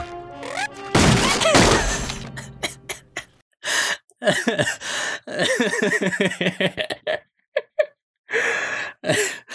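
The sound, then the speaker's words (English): A cartoon smash effect plays as SpongeBob blasts his feet through the floor. A loud noisy burst comes early, followed by gasping and chattering character voices. “SpongeBob freaking blasts his feet through the floor. The sound is so funny.”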